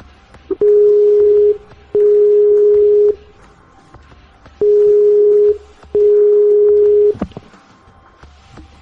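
Telephone line tones during an outgoing call: four long, steady beeps at one pitch, each about a second, spaced by short silent gaps, followed by a sharp click.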